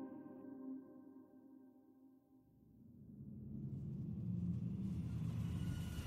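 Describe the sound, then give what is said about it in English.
A shuttle landing softly on a pad as its turbines spin down: a faint, steady turbine whine made of held tones fades away, and a low, deep rumble swells up in its place. “Our shuttle landed softly on the pad. As the turbines spun down, their whining gradually abating, Tuck and I picked up our satchels and clambered out of the ship.”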